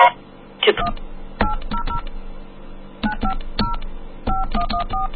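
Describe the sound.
Touch-tone keypad beeps as a toll-free telephone number is dialed: short dual-tone bursts come in quick clusters separated by brief pauses, over a low steady hum.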